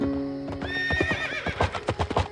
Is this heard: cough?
no